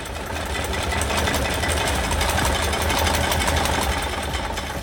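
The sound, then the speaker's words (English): Hand-cranked cocktail shaking machine holding secured shakers for a Singapore Sling, making a loud, continuous mechanical rattle and whir with an even, rapid churning rhythm throughout. “So this is the shaking machine for the Singapore Sling. So I'm going to secure the shakers for you first. And then after that, what you're going to do is crank this lever over here in a forward direction.”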